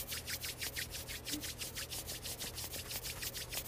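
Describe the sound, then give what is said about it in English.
Hands rubbing together during a guided meditation: soft, steady swishing strokes repeated quickly and evenly many times, with a faint low hum underneath. “Feeling your fingers. Rub your hands together.”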